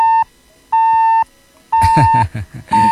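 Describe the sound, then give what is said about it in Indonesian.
Disconnection beeps after a phone call cuts off: loud, steady, mid-pitched tones repeat at even intervals with short silent gaps, and rough noisy bursts overlap the later beeps. “nggak ada suaranya tuh Bang. Sepertinya terputus itu”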